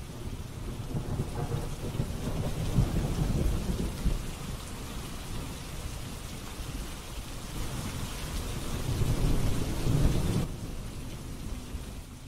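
Heavy rain pours steadily while deep thunder rumbles roll beneath it, swelling loud twice before the storm noise drops abruptly near the end.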